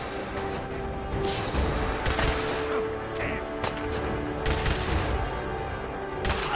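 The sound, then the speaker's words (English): Gunfire from an incendiary weapon in a video game: a few sharp, scattered shots that stand out over a steady, noisy game background. “I'm actually getting some pretty good shots with this incendiary.”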